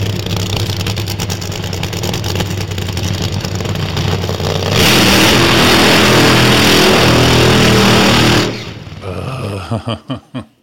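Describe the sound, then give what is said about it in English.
A car doing a burnout: the engine roars and builds into a loud, harsh rush of spinning tires that lasts several seconds, then cuts off abruptly, leaving a few fading engine pulses. “A fucking burnout. That's probably the best.”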